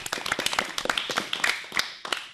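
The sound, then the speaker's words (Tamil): An audience claps at a school event featuring sixth-grade students, a dense patter of many overlapping hand claps with uneven, scattered peaks, moderately loud and steady throughout. “வாழ்த்துக்களும் பாராட்டுகளும். எல்லாரும் clap பண்ணுங்க.”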